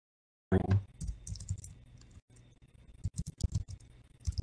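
Typing on a computer keyboard as a workout program of 30 repetitions is entered: many quick, uneven clicks and key taps in bursts, with a short pause in the middle and no talking.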